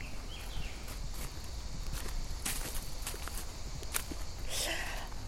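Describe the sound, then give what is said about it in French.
Footsteps walk along railway tracks in a forest, a run of uneven crunching steps over a steady background hiss. “on est en train de se diriger euh, dans un endroit assez dingue, parce qu'on marche sur des rails et on a l'impression d'être dans la forêt”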